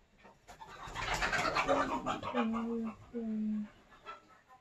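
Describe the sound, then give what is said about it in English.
A dog chasing chickens sets off a loud, busy commotion of scrabbling and flapping noise, with a few drawn-out clucking bird calls near the end. “That's my dog chasing the kid, the chickens.”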